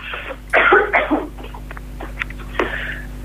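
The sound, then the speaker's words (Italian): A person with a lingering cough coughs harshly: two loud bursts come close together, then a couple of lighter, shorter throat sounds follow. No one talks. “perdonatemi, sono un po' con la tosse.”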